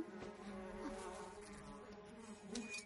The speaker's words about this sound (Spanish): saca un frasco con moscas de su chaqueta.